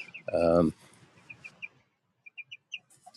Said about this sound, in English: I wanted you to be able to hear the chicks in this pen.